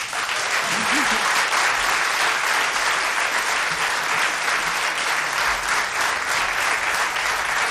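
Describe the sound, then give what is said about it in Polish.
Loud, dense audience applause, a continuous wash of many hands clapping that holds steady from start to end. “Klaszczą uboży.”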